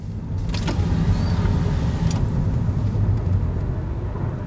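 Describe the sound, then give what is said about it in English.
A car drives on the road toward a hotel in Burbank, making a steady, loud, low rumble of engine and road noise with no clear breaks and no talking. “But now I guess I drive towards the hotel in Burbank and I can't check until 3”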